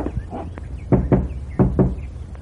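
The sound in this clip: Knocking on a door: several sharp raps, the strongest coming in two quick pairs, over a low steady hum.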